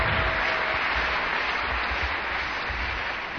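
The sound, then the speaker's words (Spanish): An audience applauds during a church sermon, a steady, loud wash of many hands clapping that holds evenly throughout and fades slightly at the end. “Démosle un aplauso al Señor. Démosle un aplauso al Señor.”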